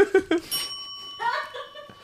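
A single bell, rung to score a point in a game, gives one clear ding that rings on in a long, steady tone after a few short bursts of laughter.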